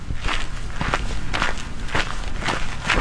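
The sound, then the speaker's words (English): Hikers' footsteps on a trail above Salt Lake City form a steady, regular series of crisp steps, many in a row at an even walking pace, with no voices over them. “The trails above Salt Lake City are bustling with activity. Hikers, bikers, and trail runners are busy getting their workout in before the day gets too hot.”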